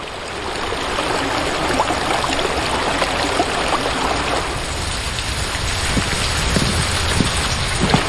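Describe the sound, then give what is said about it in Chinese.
Water rushing through a covered drainage channel beneath bluestone slabs in a village after a sluice gate is opened, a steady, loud, dense splashing roar that runs without pause, with no voices. “随着闸门开启，水流沿着青石板下的暗渠奔涌。”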